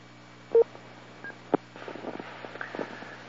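Touch-tone DTMF beeps dial into an IRLP amateur radio node, a few short separate tones spaced apart. They are followed by a stretch of crackly radio noise with faint fluttering chatter.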